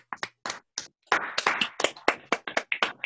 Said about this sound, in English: It's strange, isn't it, clapping virtually?